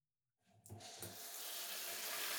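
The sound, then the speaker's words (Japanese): Tap water runs to rinse leftover cut hair from a head. It starts suddenly after a moment of silence, with a couple of early splashing surges, then settles into a steady, broad rushing hiss. “まずはさっとカットで残った髪の毛を洗い流しつつ、”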